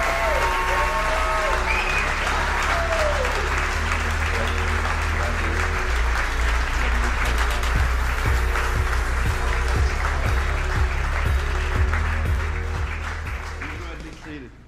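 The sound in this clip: Sustained applause and cheering from a Sunday morning audience welcoming a guest speaker and his wife. It is loud and steady for about fourteen seconds, mixed with crowd voices and low sustained musical tones, then tapers off at the end.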